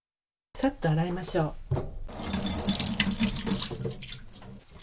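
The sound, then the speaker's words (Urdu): Running tap water washing trimmed shimeji mushrooms split into small clusters: a voice speaks first, then a steady, broad hiss of flowing water continues to the end. “شیمجی کھمبیوں کے سرے کاٹ کر انہیں 3-3 کھمبیوں میں تقسیم کر لیجیے۔ اس کے بعد انہیں اچھی طرح دھو لیجیے۔”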